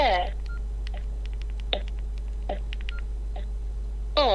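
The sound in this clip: Mobile phone keypad tones sound as a text message is typed: many short beeps in a quick, uneven series. A voice speaks briefly at the start and again at the end.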